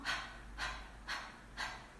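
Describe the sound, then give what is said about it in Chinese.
A person does a voiceless breathy 'ha' four times, imitating a panting dog as a breathing exercise for abdominal vibrato control. The bursts are soft and airy, evenly spaced and unvoiced. “所以我们可以首先模仿狗喘气练习，发一个无声的哈，”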